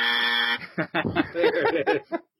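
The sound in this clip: A game buzzer sounds a short, steady, harsh harmonic buzz lasting about half a second, followed by people talking and chuckling.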